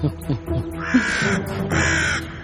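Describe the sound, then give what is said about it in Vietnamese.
Two drawn-out, harsh crow-like caws from a bird arriving to be lured to a star fruit tree, each call a loud, raspy, steady cry, separated by a short gap. “Ê, hình như con chim nó tới rồi.”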